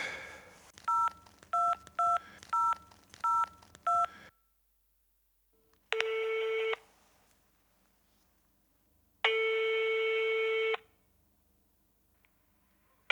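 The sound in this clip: Touch-tone beeps of a telephone number being dialled: a quick run of short two-tone beeps, then a pause and two long, steady ringing tones separated by silence.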